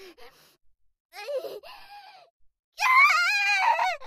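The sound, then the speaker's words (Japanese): A person screaming loudly: shorter gasping vocal sounds lead into a long, loud, wavering scream. “もういい、大声出すから。”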